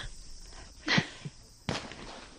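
Shotgun fire at an Olympic trap shooting event as a clay target is broken: two sharp cracks less than a second apart over low background noise.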